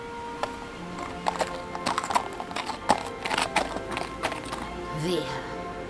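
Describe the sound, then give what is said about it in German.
Horse hooves clip-clopping as a rider mounts and leaves in a staged opera drama: many irregular, sharp hoof knocks over a few seconds, with a voice under the hooves. “Schwing dich auf dein Pferd und verschwinde von hier.”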